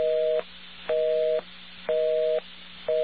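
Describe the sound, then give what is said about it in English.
Electronic busy signal from a digital telephone exchange office: a clean two-pitch tone beeps on and off in a steady, even cadence, repeating several times over a faint line hiss. “Now that is an electronic busy signal, I guess is the best way to describe that. But that's coming from an electronic office or a digital office.”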